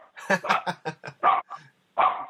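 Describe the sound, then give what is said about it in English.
Dogs bark at the mail carrier in a quick, loud run of sharp barks, then pause briefly before one more bark. “sorry for the dogs. Let them stop barking here.”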